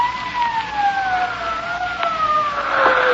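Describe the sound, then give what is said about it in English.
Police sirens wail as a sustained, piercing whine that slides slowly and steadily downward in pitch, loud and alone, with no voices over it. “Can't you hear them? What's that? I said sirens.”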